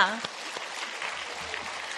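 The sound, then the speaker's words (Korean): Applause from a church audience during a New Year service: a faint, steady wash of clapping that runs through the whole clip, with a brief voice at the very start. “예, 불청객들도 수고 많았다고 박수하겠습니다.”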